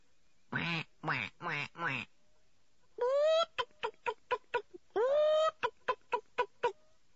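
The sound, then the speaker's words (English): Sudden loud quacking and clucking from ducks and hens: four harsh bursts, then two longer drawn-out calls, each followed by a quick run of short clipped clucks, with no voices. “Anne clutched George, and the two girls looked extremely startled to hear the sudden loud noise of quacking and clucking.”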